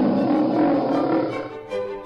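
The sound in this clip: A lion roars as it stalks and chases a stag, a deep, rough, sustained rumble that fades after about a second and a half, then swells again briefly.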